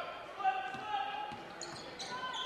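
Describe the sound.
A basketball dribbled behind the back during a game between Kearney and Blue Springs gives a few dull, rubbery bounces beneath an announcer's ongoing commentary.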